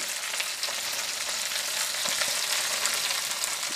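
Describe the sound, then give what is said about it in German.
An onion fries in a pan with the heat turned up, giving a steady, dense sizzle and crackle that stays fairly even throughout, with no talking. “so also jetzt der Zwiebel ist schon mal gut angebraten.”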